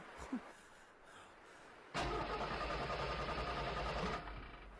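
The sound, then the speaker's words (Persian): A car engine is cranked and suddenly catches, bursting into a loud, rough, steady running roar for about two seconds before easing off. A quieter stretch with a couple of faint knocks comes before it. “روشن شو. چالان نمیشه. لالا چالان نمیشه. یعنی چی نمیشه؟ بازم استارت بزن، استارت بزن.”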